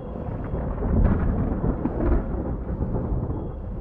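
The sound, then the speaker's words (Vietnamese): Thunder rumbles during a storm over a deserted cemetery: a deep, continuous low roll with a few swells in loudness, heard alone without voices. “Tiếng sấm rền hòa lẫn tiếng la hét dưới huyệt mộ ở giữa cái nghĩa địa hoang vắng.”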